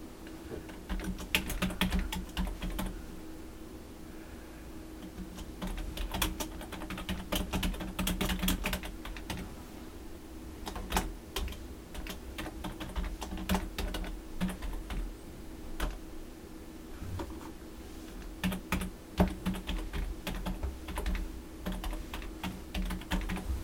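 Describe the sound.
Typing on a computer keyboard while entering a website address, many quick, faint key clicks in an irregular, continuous stream.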